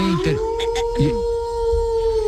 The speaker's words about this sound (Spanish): ¿Y es que en el zoológico también hay lobos?